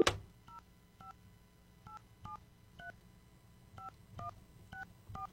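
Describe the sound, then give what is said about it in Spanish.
A telephone keypad sounds as a number is dialed: nine short, faint two-tone beeps spaced unevenly, opened by a sharp click at the very start, with no talking. “Estamos marcando. A ver si nos responde.”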